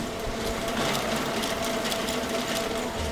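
A commercial printing press runs a print job for a local construction company, producing a steady mechanical whir with fast, regular clattering pulses that continue without pause.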